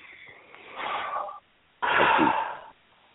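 A big breath drawn in and then let out during a tapping exercise, heard as two airy, breathy rushes with a short pause between them. The second rush is louder and more forceful, and no one speaks.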